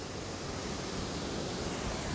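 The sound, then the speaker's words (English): Wind blowing across a microphone outdoors, a loud, steady rushing roar that fills the whole clip with no breaks and no voices. “God damn the wind.”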